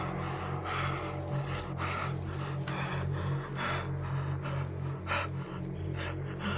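Heavy, agitated breathing from a bound captive as his hands are untied: rapid, rough breaths that come in repeated bursts over a steady low hum, with no talk.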